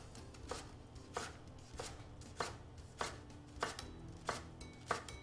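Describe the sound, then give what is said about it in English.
A knife chops through a leek with lengthwise and then crosswise cuts, giving about eight crisp, evenly spaced chops in a steady rhythm, each a sharp tap with nothing else heard between them. “So I'm going to go ahead and make some cuts. I like to make some lengthwise cuts because it's already in layers, and then cut crosswise.”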